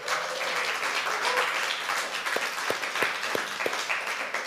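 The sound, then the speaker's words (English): Audience applause greeting a sound and media team, a steady wash of clapping throughout, with a few sharper, louder individual claps standing out toward the end. “Give it up for our sound and media team.”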